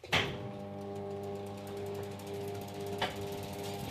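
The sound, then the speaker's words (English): A belt-driven wool processing machine starts up and runs, a steady mechanical clatter of rapid ratcheting ticks over a constant tonal hum, fairly faint and without talk. “But the machine looks after the wool. I'll turn it on and you can hear it.”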